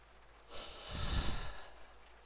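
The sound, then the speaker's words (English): A single slow, deep breath of soft rushing air swells and fades over about a second, taken alone with no talk during a calm relaxation exercise. “Take a deep breath.”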